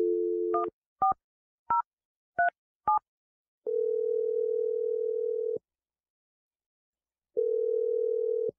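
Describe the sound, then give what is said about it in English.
A telephone dials a number: a steady dial tone gives way to five short keypad tones in an uneven rhythm, followed by two long, steady ringing tones separated by a silent gap. “We're going to dial his number right now, okay?”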